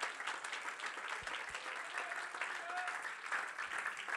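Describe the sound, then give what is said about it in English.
Soft, steady hand clapping from a church audience, continuous from start to finish and faint overall, with a voice faintly heard over it. “If you believe what I'm saying, would you clap your hands unto the Lord?”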